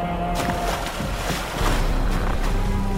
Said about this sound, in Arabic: قفز السندباد وأصدقاؤه 7 في الماء وفروا بقارب نجاة صغير